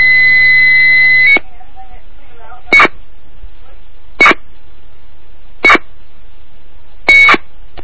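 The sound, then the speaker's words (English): Modem answering tones from a payphone dialed into by a computer terminal program: a steady two-tone whine lasts about a second and a half, then four short, bright bursts follow at even gaps. “I dialed up into this phone using Hyper Terminal.”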